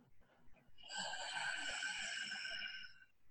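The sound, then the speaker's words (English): A single long whispered inhale drawn through a constricted back of the throat, a hissing, slightly tonal rush of breath lasting about two seconds that swells quickly and then tapers off. “instead of hearing that whisper come out of your mouth, you'll hear that whisper in the back of your throat, and you'll feel that whisper in the back of your throat. And it sounds like this, the inhale,”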